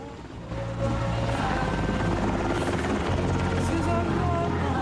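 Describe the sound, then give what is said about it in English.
A helicopter takes off with a loud, steady rotor roar. It swells in the first moment, then holds at full strength throughout. “As the chopper takes off, a little mission boy runs forward and waves goodbye to it.”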